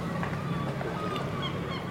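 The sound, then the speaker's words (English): Seagulls call at a fishing port with harsh, honking cries that rise and fall over a continuous background hum. “they enter the port, crates with the catches of the day, seagulls waiting for morsels of fish”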